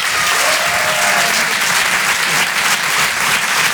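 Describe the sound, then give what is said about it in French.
Audience applause at a live comedy show: loud, dense, steady clapping that fills the whole clip without pause. “Faites du bruit, un maximum de bruit s'il vous plaît pour Jason Brokers.”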